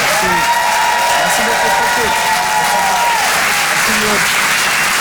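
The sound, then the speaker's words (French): Audience applause with some cheering at a comedy club, a loud continuous burst of clapping throughout, with a voice and a sustained musical tone over it. “Faites du bruit pour Pierre Tévenou.”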